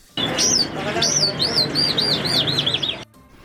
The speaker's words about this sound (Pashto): په کندهار کې د دغه راز د زینتوی مرغانو په باب مو اوریدل.